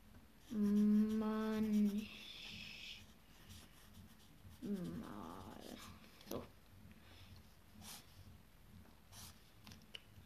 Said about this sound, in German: Also, schreibe ich hin.